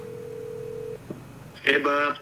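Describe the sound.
A telephone call tone, a steady single-pitched tone holding for about a second, then a faint click before a voice comes on the line.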